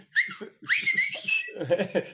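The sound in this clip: People whistling in short, bright, rising chirps, several whistles following closely one after another, with low voices and breathy noise underneath.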